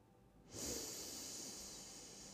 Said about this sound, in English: Focusing back again with our inhale, inhale in.